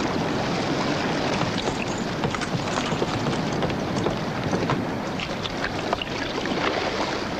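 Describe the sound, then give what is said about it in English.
A rowing boat moving through water, with a dense, steady wash of splashing and rushing water and scattered small knocks throughout, with no voices. “Unseen, Van Weyden rows past the Macedonia's boats.”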